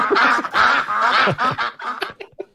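A duck quacking sound effect: a rapid, loud series of nasal, honking quacks that runs almost without a break, then ends in a few shorter, separate calls.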